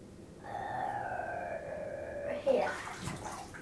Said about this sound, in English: Mummy, wash your hair now. Can you do it twice? No. Rinsing.